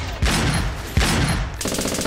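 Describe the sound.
Heavy shots from a sniper rifle in the Roblox video game: two loud, sudden blasts, each followed by a long, noisy rumbling tail.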